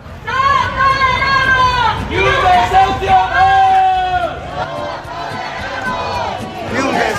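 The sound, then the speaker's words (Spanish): A protest rally chants outside Urbagestión headquarters in central Valladolid, opposing an eviction. Loud, rhythmic slogans rise from a crowd of voices, with a surge of shouting after a short pause and steady babble underneath. “Es el sonido de la concentración convocada frente a la sede de Urbagestión en el centro de Valladolid.”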